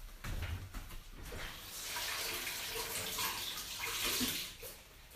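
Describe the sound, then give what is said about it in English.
Running tap water rinses a dropped half Honeycrisp apple, a loud, steady rushing splash with uneven bursts of spatter that continue through the whole stretch. “Yes, I'm picking half a Honey Crisp apple up off the floor and washing it off.”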